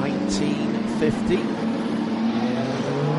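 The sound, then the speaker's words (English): Racing cars at full speed and full noise on a historic circuit, with GT cars mixed into the field, give a loud, continuous engine drone that stays steady throughout. “about to resonate again to the sound of full speed, full noise racing cars, and it will be Will Stevens”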